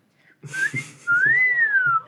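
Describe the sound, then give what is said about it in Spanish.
Whistling attempted through a face mask: a couple of short breathy notes, then a long sustained tone that rises slightly and slides back down, clear and fairly loud. “no sale el silbido por la mascarilla, pero estaba intentando silbar.”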